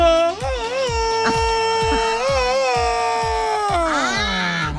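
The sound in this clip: A person imitates a famous jungle hero's war cry: a long, loud yodelling yell with a wavering, warbling pitch that drops toward the end, sung over a steady rhythmic drum beat.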